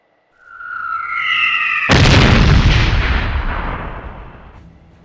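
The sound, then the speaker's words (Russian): Explosions and blaring sirens from a fortress wall: a steady, harmonic siren-like tone swells first, then one heavy blast bursts in with a loud, broad roar that rumbles on and slowly fades. “Кацухиро не был уверен, разбудил ли его нарастающий шум взрывов или живой клаксонов, доносящихся со стены”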